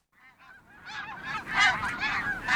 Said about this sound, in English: Have you ever heard the wild geese calling as they draw nigh in high formation?